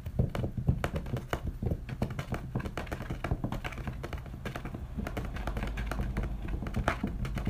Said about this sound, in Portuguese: eu amo digitar